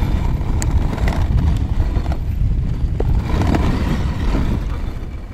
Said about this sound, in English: Striding, pulling effortlessly over this icy trail, it's hard not to see how beautifully and how naturally they run.